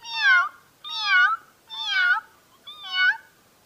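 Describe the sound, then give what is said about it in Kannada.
A cat meows four times in a row, each call a clear, high, drawn-out cry with short pauses between, heard alone without other sounds. “ಶಾಲೆಗೆ ಹೊರಡಿ ನಡೆದುಕೊಂಡು ಹೋಗುವಾಗ ಬೆಕ್ಕು ನನ್ನನ್ನು ನೋಡಿ ಹೀಗೆ ಕೂಗಿತು”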